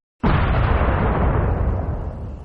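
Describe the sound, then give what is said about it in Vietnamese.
A terrible explosion bursts in all at once: a sudden, loud, full-bodied blast that roars on and slowly fades over about two seconds, with no voices. “Trong nháy mắt khi cô lùi lại thì có tiếng nổ cực kỳ kinh khủng phát ra.”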